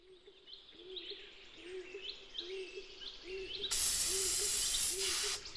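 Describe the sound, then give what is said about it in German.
Hissing spray of paint being applied to a tree in a forest: a loud, steady burst begins past the midpoint and runs almost to the end. Birds chirp repeatedly throughout, both before the spray and beneath it. “Der sprüht den Baum an, mit Farbe.”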